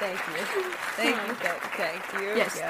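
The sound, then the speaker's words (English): Applause added in editing: a steady patter of many clapping hands that continues under a voice speaking on top of it. “I will just add some applause.”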